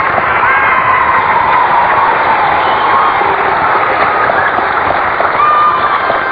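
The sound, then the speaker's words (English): Studio audience applause and cheering fill the whole stretch as a dense, steady roar of clapping and excited voices, holding at an even, loud level from start to finish. “sounds like our audience out there is excited about something.”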